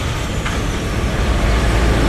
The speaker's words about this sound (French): sur le site de l'usine, qui appartient au groupe de la raffinerie Tirlemontoise, c'est un balai de camions qui viennent livrer chaque jour leur cargaison de betteraves.